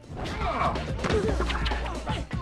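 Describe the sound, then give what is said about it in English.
A golf club whacks people during a film fight scene against a skinhead gang, giving a few sharp, loud smacking hits over a busy, noisy struggle. “Elmo whacks another two skinheads with his golf club.”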